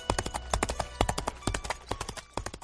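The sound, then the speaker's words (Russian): Horse hooves gallop in a rapid, clattering run of many quick, hard hoofbeats in an uneven rhythm, fairly faint and heard alone. “И никто из нас не услышал топота копыт, пока не стало поздно.”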